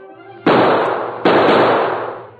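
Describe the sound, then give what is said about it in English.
Two sharp gunshots, a radio drama sound effect in a trick-shooting contest from an old western. Each is a loud crack followed by a long, noisy decay, the second coming less than a second after the first. There are no voices. “Tombstone tried every trick shot he knew, but the Lone Ranger matched every one until finally...”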